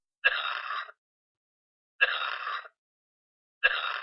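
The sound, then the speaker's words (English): A person demonstrating a wet, productive cough: three separate, evenly spaced cough bursts, each short and moderately loud, with silence between them and no other sound. “we also have a wet productive cough, which sounds like this.”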